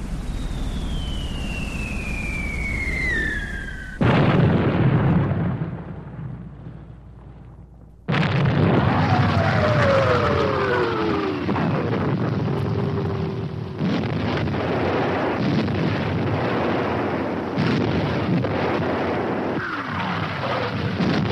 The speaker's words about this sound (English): And then the bombardment started.